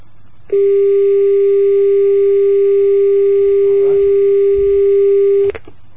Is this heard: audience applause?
no